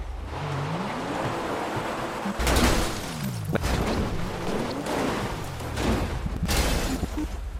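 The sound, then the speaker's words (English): A car rolls and tumbles down a mountain in a video game, its engine tone wavering up and down between several loud crashing impacts. “So, I'm gonna spawn a car and immediately it's, we're gonna start rolling off of this mountain and you should see.”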